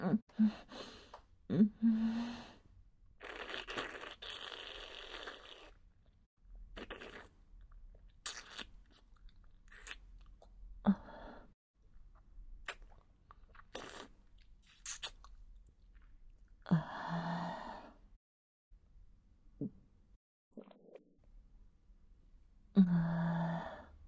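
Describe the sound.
Chewing and crunching while eating a meal, heard as irregular bursts of bites and mastication with a few breathy sighs or gasps between them. There is no talk.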